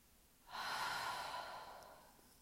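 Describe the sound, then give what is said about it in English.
Deep nasal inhale and loud mouth exhale during a breathing exercise: one long, loud, airy breath that rises sharply, then slowly fades over about two seconds. “take a deep inhale through your nose and exhale out through your mouth loudly.”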